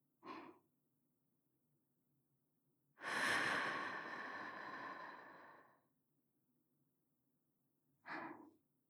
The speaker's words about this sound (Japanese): 最初に息を吐き出します。二人で息を合わせましょう。いきますよ。